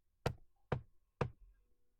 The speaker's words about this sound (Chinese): 他礼貌地敲了敲门。